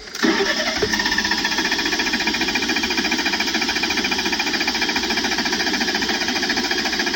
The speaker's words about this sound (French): Autant dire que ça ne démarre pas, quoi. Non, elle veut pas ce matin. Encore un coup de la batterie, ça.